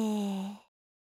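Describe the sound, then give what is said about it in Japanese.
A single slow exhale through the mouth, soft and faintly voiced, with a breathy hiss that fades out in well under a second. “息を吐くときは口からゆっくり吐いてみて、息を吸って。”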